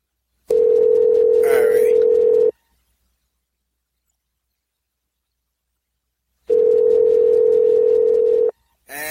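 Ringback tone on a phone call waiting to be picked up: two loud, steady, mid-pitched rings of about two seconds each with a long silence between, and the start of another ring cut off at the end.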